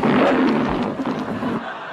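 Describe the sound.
A lion roar from a novelty car alarm: one loud, rough, growling roar that stays sustained for about two seconds and weakens slightly toward the end.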